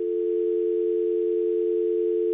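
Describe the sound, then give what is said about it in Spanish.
A telephone dial tone sounds after a dropped call: one steady, unbroken mid-pitched tone that holds at an even volume for the whole stretch, with nothing else alongside it. “Se cayó la llamada. Bueno, eso puede pasar especialmente cuando llueve.”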